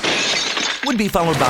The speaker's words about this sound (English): That was the sound of your window breaking.